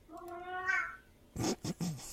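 A hungry cat meows once, a drawn-out, rising and falling cry, followed by a few short, noisy, breathy bursts. The sounds are fairly faint.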